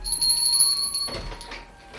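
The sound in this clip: A bell rings to summon a servant, giving a bright, sustained ringing tone for about a second before it drops away into a quieter, fading shimmer.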